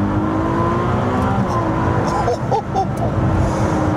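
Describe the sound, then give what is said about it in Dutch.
Revving of a mid-engine plug-in hybrid V6 sports car: a steady, loud engine drone that holds throughout, with a few brief blips of revs late on. “Maar deze V6, de Piccolo V12, zo willen ze hem zelf noemen.”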